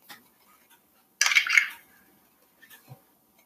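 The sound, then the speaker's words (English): A teaspoon is rinsed of vanilla while baking chocolate chip cookies: a short burst of running water with metallic clinks, set between quiet, scattered small clicks. “since we don't have our teaspoon, we are gonna rinse it out so the vanilla is gone, and then you can use it for your baking soda.”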